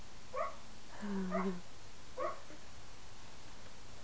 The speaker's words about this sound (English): listen. The doggy's having a dream. He's dreaming.